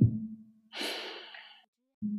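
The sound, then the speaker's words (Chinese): A breath drawn in through the nose during a breathing exercise, a breathy, airy rush lasting under a second. Brief voiced sounds come just before and after it. “OK，好，我们现在用鼻子用鼻子吸气，要来要特别慢的那种，来，预备，Go。”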